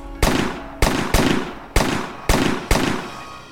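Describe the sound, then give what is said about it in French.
Gunfire sound effect of police firing many rounds into a car: six sharp, loud shots at an uneven pace, each one cracking hard and then trailing off in a long fading tail. “La fusillade a duré 16 secondes. Les policiers ont tiré 150 cartouches. 10 coups de feu par seconde.”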